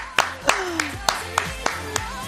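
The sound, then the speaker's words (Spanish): A handful of sharp, evenly spaced hand claps from two radio show hosts applauding a guest, crisp and moderately loud, with no voices over them. “te vamos a dar un aplauso”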